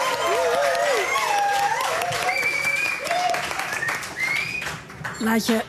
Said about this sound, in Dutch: Laat je horen, nog 1 keer een heel erg applaus.